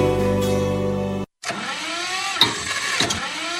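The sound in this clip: Tractor engine cranking and struggling to start early in the morning before ploughing a field, the machine prone to breaking down: a steady droning hum, a short silent break, then rough sputtering engine noise with two sharper bursts.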